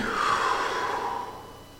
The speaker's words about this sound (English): Breathe in.